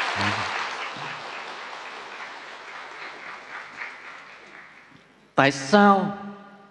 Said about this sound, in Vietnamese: Phụ nữ là tuyệt vời, nên ta phải vỗ tay lần nữa ca ngợi phụ nữ vậy.